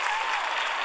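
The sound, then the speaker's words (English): Applause sound effect: a brief, dense burst of steady hand clapping that stays even and full throughout. “that's a sound of applause because Dan Pink never hits up against his deadline.”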